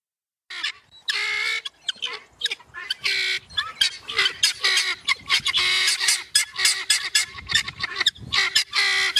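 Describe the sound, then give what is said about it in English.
Male guinea fowl calling: a loud, rapid run of many harsh, screechy, honking cries in uneven bursts with short breaks between them. “Like it's like got a seagull screechy, and a crow. Yeah, like a screechy part and then a something else part. This is a male guinea fowl.”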